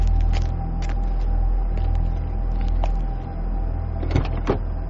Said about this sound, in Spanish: Después, abrió la puerta muy lentamente y descendió del coche.